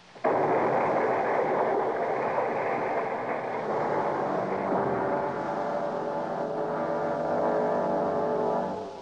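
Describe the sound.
A thrown bottle of nitroglycerin explodes in a radio drama, wrecking a cottage: a sudden loud blast swells into a sustained, heavy roar lasting about nine seconds, then drops away at the end.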